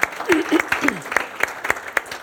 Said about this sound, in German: gebt den Frauen einmal einfach einen kräftigen Applaus.